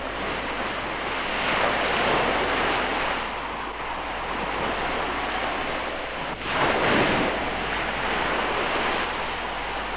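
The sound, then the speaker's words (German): Breakers crash against a ship at sea, making a continuous roaring wash of surf and wind that swells louder around two and seven seconds. No voices are heard. “Festhalten! Die Brecher kommen!”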